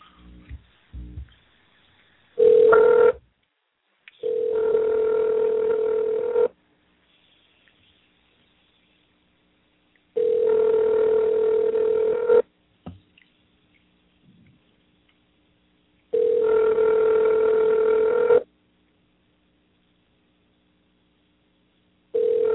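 Telephone call being placed: faint clicks, a short tone, then three long, steady ringback tones separated by regular silent pauses, with another ring just starting at the end.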